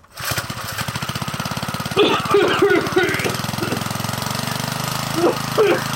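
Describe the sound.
A diesel engine is pull-started as a sound effect for a random talk-topic generator segment: after a brief quiet moment it catches and chugs with a steady, even rhythm, while voices talk over it.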